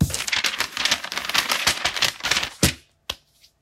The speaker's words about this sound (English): Let me open the envelope.